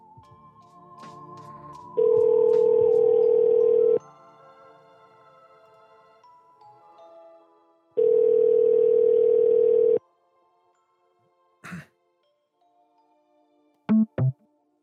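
Telephone ringback tone while a call is being placed: two long, steady, mid-pitched tones, each about two seconds, separated by a quiet gap. A few short, faint beeps and clicks follow near the end.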